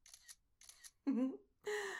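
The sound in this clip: A phone camera on a selfie stick fires its shutter twice in quick succession, two short crisp clicks, followed by a voice speaking.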